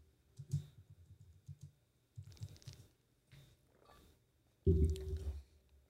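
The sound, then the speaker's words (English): Computer keyboard typing a search: quiet runs of quick key clicks in a few separate bursts with short pauses between, then a louder, heavier burst of clatter near the end. “No, bro. Type in... Olympic 2020, Russia ban.”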